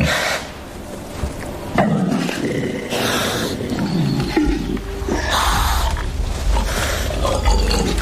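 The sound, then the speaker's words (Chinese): Male wild boars fight, with a continuous loud din of deep, rough roars and grunts that rises and falls throughout, with no clear breaks. “又一只雄性野猪前来，向刚才那只野猪发起挑战。双方势均力敌，谁都不肯退让。”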